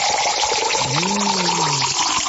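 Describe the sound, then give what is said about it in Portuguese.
Drinking water poured into a glass, a steady splashing rush that fills the whole clip, with a low tonal ring swelling and fading beneath it midway. “E agora vamos tomar aquela água da boa, aquela purinha, né? Vamos tomar uma aguinha? Vamos!”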